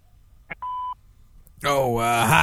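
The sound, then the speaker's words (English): A voicemail beep sounds before a caller leaves a message: a tiny blip, then one steady mid-pitched tone lasting about a third of a second, followed by a voice starting to speak. “Maybe just a voicemail for the Red Boy podcast. Please leave a message.”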